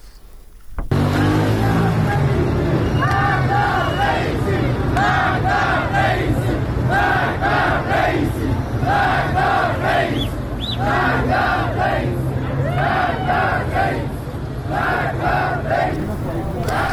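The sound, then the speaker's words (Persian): Protesters in Iran chanting together as a loud crowd, their voices rising in rhythmic, repeated bursts of shouted phrases over a constant roar that continues through the whole recording. “البته فایل صدایی که شنیدید در ارتباط با اعتراضات در ایران هست”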